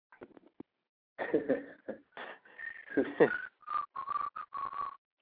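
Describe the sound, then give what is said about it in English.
A person whistles in a run of short, pitched, slightly breathy notes that waver in tone, bunched together toward the end. Scattered vocal noises come before the whistling. “Whoever just was whistling, it sounded like he was blowing in the fan.”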